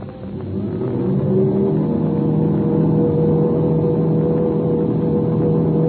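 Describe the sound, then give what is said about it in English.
Airplane motors running up before takeoff in an air race: a droning engine roar that swells over the first second, then holds steady and loud, with no talk. “The English ship's running up its motors.”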